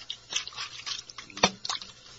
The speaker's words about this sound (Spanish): Déjeme trabajar, porque estoy lavando estas garras.